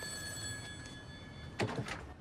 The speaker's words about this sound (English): Bill answers the phone.